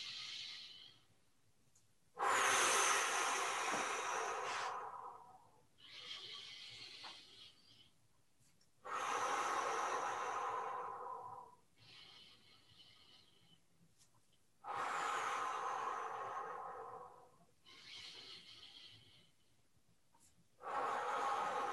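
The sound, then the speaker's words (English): Deep, slow breathing during a guided exercise, arms raised on each inhale and lowered on the exhale: long airy inhales, each followed by a slightly softer exhale, repeating in steady cycles with short pauses and no voices. “We're going to raise our hands above our head on an inhale, and then we're going to let go on an exhale.”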